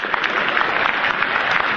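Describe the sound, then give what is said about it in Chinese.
Audience applause at a Beijing comedy stage show in 2018, a brief burst of dense, steady clapping that fills the whole clip without voices. “请首先为我鼓掌，掌声鼓起来。”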